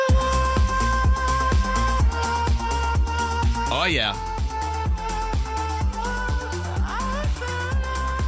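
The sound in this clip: Synth-driven dance cover of a disco song, sung by a pop singer, with a steady pulsing electronic beat and sustained keyboard tones; a voice calls out briefly over the music midway.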